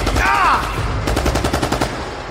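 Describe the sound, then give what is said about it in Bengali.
A volley of gunfire as several shooters open fire together, heard as a loud, rapid burst of many sharp shots packed closely together. “সে বসে পড়তেই এক ঝাঁক গুলি ছুটে এলো”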